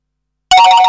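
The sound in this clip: A mobile phone ringtone bursts in abruptly after half a second of silence, a bright, loud tonal chime sounding until the end.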